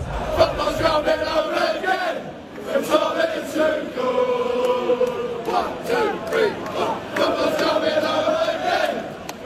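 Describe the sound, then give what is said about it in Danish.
English football fans sing together in a stadium before a World Cup semifinal against Argentina, a loud, sustained chorus of massed voices carrying a melody with swelling and dipping phrases. “De engelske fans, de drømmer om pokalen, så fodbold endelig kan bringes hjem, som de synger her.”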